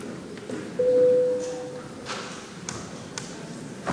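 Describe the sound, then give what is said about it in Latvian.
A bell or electronic signal marking the start of a vote in a parliament chamber: one steady, mid-pitched tone lasting about a second, over low room noise with a few faint taps. “Lūdzu, zvanu balsosim par 93. Deputātas Tāraudas iesniegto priekšlikumu lūdzu balsošanas režīmu.”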